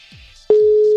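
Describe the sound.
Ringing tone of an outgoing phone call: a steady mid-pitched electronic tone that starts abruptly halfway through after a faint, quiet lead-in and holds loud to the end.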